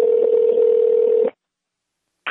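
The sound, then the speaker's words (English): Ringback tone on a phone call to a Kentucky number: one steady, mid-pitched buzzing ring lasts just over a second, silence follows, and the next ring begins right at the end. “Keep ringing. Oh, what was that? Weird. Please have voicemail. Double ring. Please have voicemail.”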